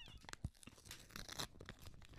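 An envelope being torn open, giving faint crinkly crackles and short tearing bursts that come in an irregular run.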